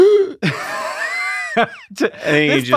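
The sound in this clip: A person vocally imitates a sudden gasp of emotional stress, with sharp, startled intakes of breath mixed with strained, breathy vocal sounds.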